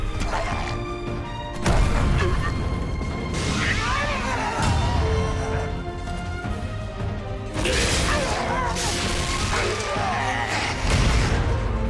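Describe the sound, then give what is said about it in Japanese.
Heavy crashing impacts of a warrior's shield bash strike, a few loud smashing hits over a dense, busy background of clatter and tones. “本職戦士、戦技スキル、シールドバッシュ。”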